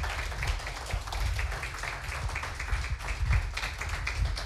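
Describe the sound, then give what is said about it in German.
Audience clapping hands at a poetry slam in Heide, many quick, overlapping claps forming a steady patter of moderate loudness. “Macht bitte einmal ein Geräusch mit euren Händen, damit unsere Poetinnen und Poeten da hinten hören, dass ihr da seid.”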